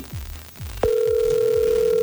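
A telephone dial tone comes on sharply after a few soft low thumps and holds a steady, loud, even pitch until the end.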